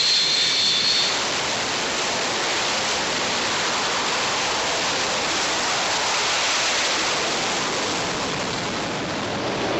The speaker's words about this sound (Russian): Ветер 12,7. Встречный взлет разрешаю. Разрешили.